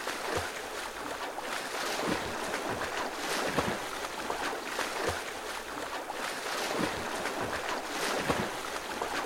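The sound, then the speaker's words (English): A swimmer's strokes churn the water while swimming laps deep into a long distance set. Soft, steady splashing swells into regular whooshing surges roughly every one and a half seconds. “This is the sound of a swimmer on their 1500th yard.”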